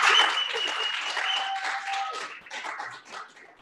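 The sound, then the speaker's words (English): An audience breaks into dense applause, loud at first, then thinning and fading over a few seconds, with a few whistle-like tones mixed in. “clap it up for Uncle Hotep.”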